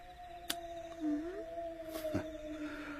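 A wolf howls in a faint, long, sustained tone that holds fairly steady with a slight bend in pitch. A few sharp clicks break in along the way.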